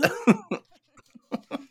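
Throat clearing from a person trying to clear their throat, heard as a few short, rough, voiced bursts with a pause between them.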